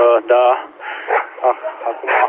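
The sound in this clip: Dogs barking, a few sharp, yelping barks in short bursts, coming through a thin, narrow-band mobile radio signal.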